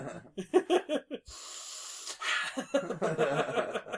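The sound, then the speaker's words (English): A voice imitates a character's wheezy, snorting breathing during a tabletop role-playing game session. It has a few short gasping puffs, then a longer hissing breath, then a run of raspy huffs, fairly loud and without words. “Here, Chuffy breathing.”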